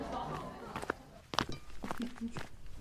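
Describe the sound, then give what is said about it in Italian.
Footsteps of two men walking unsteadily home together late at night after a bar, a few faint, irregular soft steps and thuds under indistinct voices. “Camminando nella stessa direzione, l'uno si sorregge all'altro, un po' incerti sulle gambe.”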